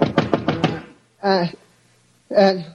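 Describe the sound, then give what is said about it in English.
Knocks on a door come as two short, resonant bursts separated by a pause, heard after a stretch of speech. “And then a knock on the door wakened me.”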